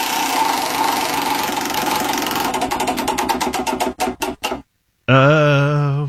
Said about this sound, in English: It is time to spin the wheel and see what you're going to eat.